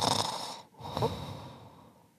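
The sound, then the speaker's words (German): A voice imitates comic-style snoring, a couple of rasping, snorting breaths with a brief pause between them. “also so schnarchend gibt's nur in Comics, oder?”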